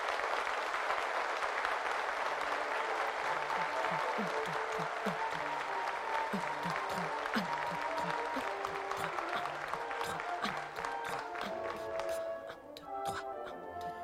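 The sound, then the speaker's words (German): Crowd applause at an outdoor summer festival, a dense, crackling patter that runs steadily throughout like rain drumming on a roof, thinning slightly near the end. “Und Applaus, der wie Regen fällt. Applaus, der aufs Dach klatscht.”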